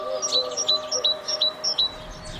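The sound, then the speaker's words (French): Great tit (Parus major), a city-dwelling bird, sings a rhythmic run of high, bright two-note phrases, each pair repeated evenly over a faint low background hum. “Parus major fait partie de ces espèces qui se plaisent à la ville.”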